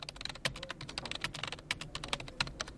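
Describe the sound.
Rapid typing on a computer keyboard: many crisp key clicks at an uneven, quick rhythm, with a few louder strikes, heard alone with no talking.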